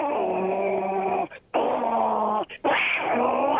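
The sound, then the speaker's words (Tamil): A man imitates his pet cats fighting, making three long, drawn-out yowling cries with harsh, nasal tone, each held for over a second and separated by brief pauses. “என் வீட்டுல பூனைங்க வளர்க்குறோம் sir. Actually அது அந்த பூனைங்க பேர் பாத்தீங்கன்னா சின்ட்டு மண்ட்டு, நாலஞ்சு ரெண்டு பூனைங்க இருக்கு. அது சண்டை போடும் பாருங்க, பயங்கரமா இருக்கும், வேற லெவல்ல இருக்கும். அது திடீர்னு சண்டை போடும் பாருங்க,”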